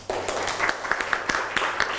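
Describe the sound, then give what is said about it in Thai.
Applause in a classroom for a student wearing an apron: a burst of fairly soft, scattered hand claps starts abruptly and continues unevenly. “ให้เพื่อนดูหน่อยนะครับนี่เสื้อกันเปื้อนนะครับที่เพื่อนใส่มาปรบมือให้เพื่อนหน่อย”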